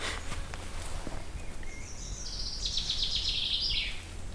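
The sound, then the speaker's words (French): Common chaffinch song: one faint, fast trill of high notes ending in a short flourish, over steady background hiss. “Ça, c'est un chant qui est assez simple à apprendre au début. C'est le chant du pinson des arbres.”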